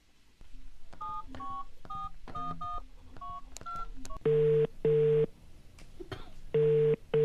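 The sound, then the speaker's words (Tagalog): Keypad tones dial a call from a phone set to a private number: a quick string of bright DTMF beeps, then loud ringing tones in two double-pulse pairs over faint background noise. “Awuke ngifake nale phone ku private number.”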